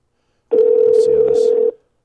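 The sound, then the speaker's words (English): A telephone dial tone sounds while a phone call is being placed: a single steady, mid-pitched electronic tone that holds for just over a second and then cuts off, with silence on either side. “I'm going to try to hit up our my good man Eric Marino on the phone. I'm not guaranteeing he's going to answer.”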